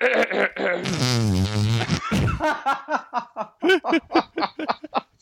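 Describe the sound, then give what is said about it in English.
Hands squeeze out a fart imitation as a long, buzzy, wobbling blast, followed by bursts of snickering laughter. “That was a hand noise.”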